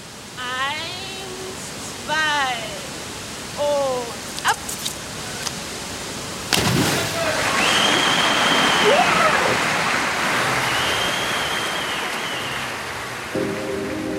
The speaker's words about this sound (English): When the athlete goes under the water, we shift the perspective to just them and the underwater sound. You hear the bubbles.